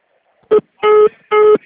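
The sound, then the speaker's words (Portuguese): A telephone busy signal sounds as three buzzy, mid-pitched beeps with no voices over them. The first beep is short, and the next two are longer and evenly spaced. “Mensagem gratuita de telefone ocupado. Aguarde alguns minutos para voltar a ligar.”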